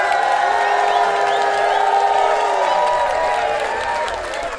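A festival crowd at the Love Supreme Jazz Festival cheers loudly over dense applause, with scattered high whoops rising above a sustained roar that eases slightly at the end.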